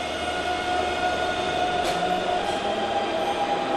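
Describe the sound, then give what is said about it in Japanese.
A quiet subway train running on a blue metro line, giving a steady, even rumble and hum with a faint constant whine, continuous and unbroken, with no voices. “めちゃめちゃ静かですよこの地下鉄、本当に。”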